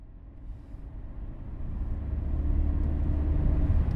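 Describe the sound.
A car drives along, its low engine and road rumble forming a steady, dense drone that grows gradually louder across the few seconds, with no voices.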